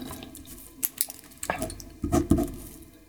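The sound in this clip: Liquid poured during a laboratory experiment: a few uneven splashy pours and trickles, the last burst the fullest, with no talk.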